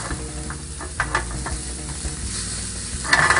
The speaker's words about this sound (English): So you can see that's browning really quick. We're not doing anything fancy.